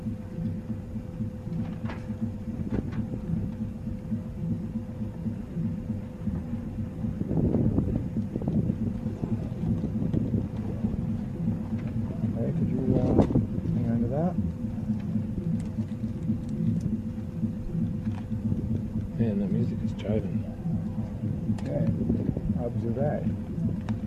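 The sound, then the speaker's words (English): Wind blowing outdoors, buffeting the microphone with a steady low rumble that runs throughout, while someone talks intermittently over it. “The wind is blowing, so it's going to be a little difficult to keep my lighter under it.”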